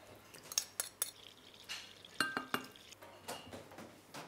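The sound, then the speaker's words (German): Utensil clinks and stirring from making yeast dough for a plum cake: several sharp, bright knocks and scrapes of a spoon against a bowl, in an uneven rhythm with short pauses, fairly quiet overall. “Also wir machen jetzt den Hefeteig für den Zwetschgenkuchen.”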